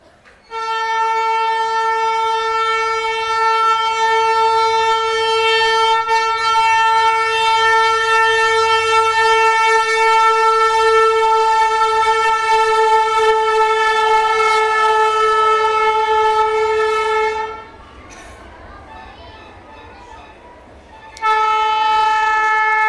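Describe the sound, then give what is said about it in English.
A noisy train sounds its horn in one long, loud, steady harmonic blare that holds for about seventeen seconds, gives way to quieter rumbling, then blasts again at the end. “that train? It's like a very noisy, oversized rickshaw.”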